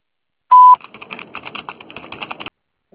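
A voicemail beep before a message plays as a single short, loud, steady tone, followed by a run of rapid soft clicks and taps that stop abruptly.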